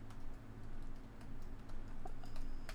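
Faint typing on a computer keyboard: many quick, irregular key clicks tapping along with no speech over them.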